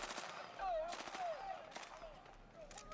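Gunfire from a gun in a video: a few bursts of rapid automatic fire, faint and crackly, over a steady background hiss.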